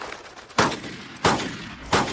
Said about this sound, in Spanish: dispara en un videojuego de caza